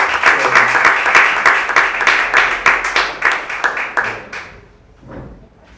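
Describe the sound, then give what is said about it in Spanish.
An audience applauding with dense, steady clapping that fades out after about four seconds, followed by a faint thump. “Un aplauso para todos.”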